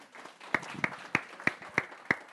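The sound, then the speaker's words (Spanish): A church audience applauding during a bilingual service, led by six loud, evenly spaced claps that stand out above softer, continuous clapping underneath. “Un aplauso.”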